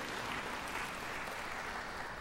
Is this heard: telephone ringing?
no